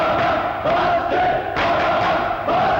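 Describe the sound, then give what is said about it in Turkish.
A crowd cheers at a boys' high school quiz competition, with loud, dense roaring that rises in repeated surges and dips briefly between them. “Tezahürat istemez canım.”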